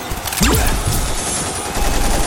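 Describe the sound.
Gunfire rings out as a loud, dense and continuous burst of crackling shots. The individual reports blur together rather than standing apart, and no voices are heard over it.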